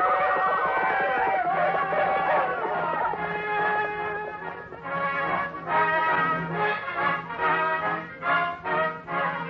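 Horses ride fast in a Western adventure, with a loud, drawn-out whinny near the start. Dense, sustained tones follow, then a rhythmic, driving pulse through the second half.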